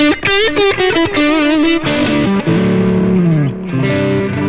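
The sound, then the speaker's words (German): Boosted crunch high-gain electric guitar lead tone, about 4 dB of boost, heavily distorted: a quick run of picked notes gives way to longer sustained notes that slide and bend, played alone. “dann habe ich die Crunch und High-Gain-Sounds immer noch mal als Lead-Sounds”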